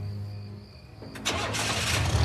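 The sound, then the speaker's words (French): A white car's engine starts and the car speeds off from a golf course parking lot. A low engine hum gives way to a sudden loud burst of roaring engine noise that stays strong to the end. “La voiture blanche démarre en trombe sur le parking du golf de Blue Rock Springs”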